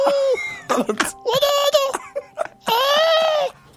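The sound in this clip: A baby cries and will not calm down even after a lullaby. Several high-pitched, strained wails come in a few long bursts, broken by short sobbing catches of breath.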